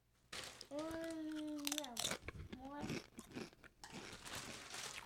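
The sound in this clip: Crisp crunching and chewing of an expired cheesy enchilada Dorito chip, in a few sharp, irregular bursts that follow a brief voice.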